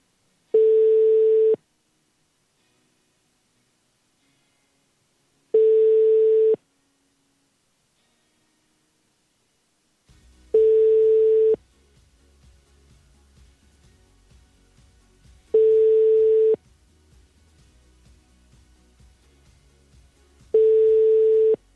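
Telephone ringing tone on an outgoing call: five long, steady, mid-pitched beeps separated by evenly spaced pauses of several seconds. A low rumbling background comes in partway through.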